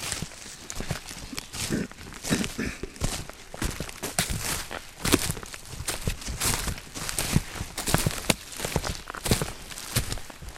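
Footsteps of people walking up to an old tree stump in a forest, many irregular crunching steps over the ground that continue steadily through the whole stretch.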